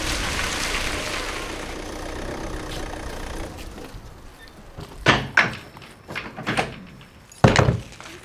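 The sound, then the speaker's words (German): A car towing a horse trailer arrives with a steady engine rumble that fades. Then come several loud thuds and clunks as the trailer's rear ramp is opened, the last one the heaviest. “da kommt ja schon das Auto mit Anhänger.”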